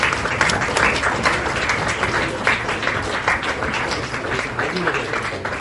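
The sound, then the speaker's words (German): An audience applauds after a lecture, with dense, steady clapping that holds at an even level throughout. “Applaus”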